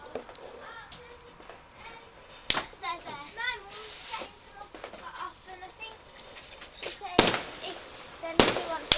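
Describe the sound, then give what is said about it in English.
Fireworks rockets being set off, heard as a few sharp, loud cracks spaced out over a backdrop of children's voices chattering and calling. “We're setting some like rockets off and all.”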